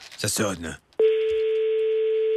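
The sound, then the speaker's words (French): Ringing tone of an outgoing telephone call: after a short burst of speech, one steady, loud, mid-pitched tone starts and holds unbroken to the end. “Ça sonne. Il faut que quelqu'un réponde.”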